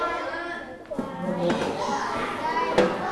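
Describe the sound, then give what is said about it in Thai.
Children talking loudly in groups in a classroom, many overlapping young voices chattering at once in a busy, continuous din. “โอ้โหเสียงตีกันมาละก็เด็กๆเบาเสียงนิดนึงเดี๋ยวเพื่อนกลุ่มอื่นเสียงจะตีกันนะลูกอ่านไม่ต้องเสียงดังมากนะ”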